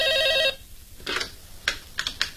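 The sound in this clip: A telephone rings with a brief warbling electronic trill that cuts off, followed by a few faint clicks.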